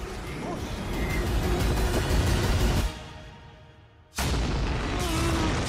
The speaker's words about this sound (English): John Cena fucked up the grenade.